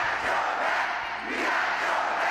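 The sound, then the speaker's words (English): A crowd of about 2,000 supporters cheers at a President Biden rally in a packed school gym in Detroit, Michigan, a loud, continuous roar of voices. “2,000 supporters cheering President Biden in a packed school gym in the important battleground state, Michigan.”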